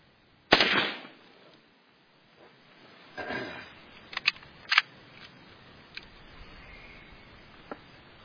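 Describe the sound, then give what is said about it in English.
Gunshots fired at a small target: one loud, sharp report with a short decaying tail, followed by several smaller, crisp cracks spaced irregularly over the next few seconds, with quiet gaps between them. “That's a pretty small target over there I'm shooting.”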